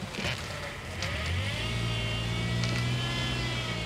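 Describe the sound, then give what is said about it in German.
A car engine hums low and steady as the vehicle reverses slowly while parallel parking, the drone lifting slightly as gentle throttle is applied, with no voices. “Rückwärtsgang. Einschlagen. Sehr gut. Langsam Gas geben.”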